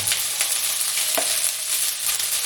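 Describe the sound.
Rice frying in an oiled pan, a dense, steady sizzle with scraping stir sounds running through it. No one speaks.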